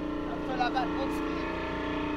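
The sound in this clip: Fishing boat engine droning in a steady, even hum rich in layered tones, holding constant throughout the short clip without any change in rhythm.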